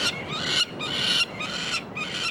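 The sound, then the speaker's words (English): Baby birds screaming while being banded in the eastern United States: four harsh, raspy, high screeching calls in a steady rhythm, each about half a second long, with only brief gaps between them. “Just because the baby birds are screaming doesn't mean we're hurting them. All it means is that they're very afraid.”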